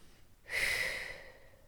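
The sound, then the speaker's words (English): A single slow exhale through the nose during a guided breathing exercise: a soft, breathy rush of air that starts abruptly, stays full for a moment, then tapers off gradually. No voices. “And exhale all the air out slowly through your nose.”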